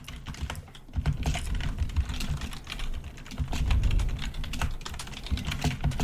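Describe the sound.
Typing on a computer keyboard: rapid, irregular clicking of keys in uneven bursts with brief pauses, heard alone without speech.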